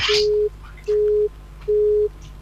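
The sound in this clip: Disconnect tone from a telephone call that has been cut off: three identical steady, mid-pitched beeps, evenly spaced and equally loud, with quiet gaps between them.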